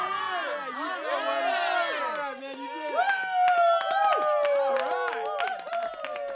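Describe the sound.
An audience claps and cheers to welcome a comedy duo onstage. Loud whooping and shouting voices come first, then sharp, dense applause takes over, with more cheers running through it.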